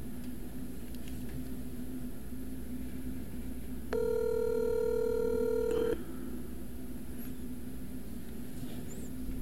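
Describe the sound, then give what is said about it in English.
A telephone ringing tone as a call is placed: one steady electronic tone of about two seconds, clear above a constant low background hum, with no voices. “I know you might be missing Void, so I'm going to give him a little ring-a-ding-ding.”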